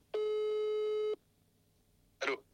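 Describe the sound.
A telephone line tone sounds as a call is placed: one long, steady electronic beep of about a second, followed after a pause by a brief, noisy crackle.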